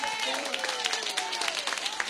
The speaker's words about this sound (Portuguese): Receba no nome de Jesus. Bate as palmas da glória.